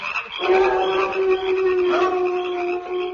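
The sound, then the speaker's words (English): A sound-effect howl stands in for prairie dogs howling on the prairie at night: a long, steady, mid-pitched tone with clear overtones. It rises briefly and starts again near the end, and no other sound is heard. “will all those prairie dogs never stop howling? They're always howling.”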